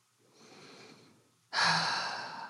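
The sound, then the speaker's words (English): Breathing during a mindfulness practice: a soft, airy breath followed after a short pause by a louder, fuller one that slowly tapers off, with no talk. “I notice my breath”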